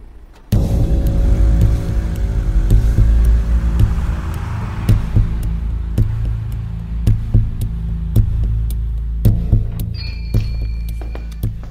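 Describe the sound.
Car engine starting abruptly and then idling with a steady, low, throbbing rumble and a few soft knocks and thunks over it. No voices are heard.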